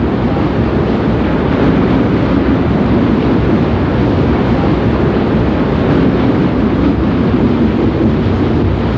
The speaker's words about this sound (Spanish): Presa del pánico, caí en la cuenta de que se acercaba un barco muy grande, un petrolero quizá.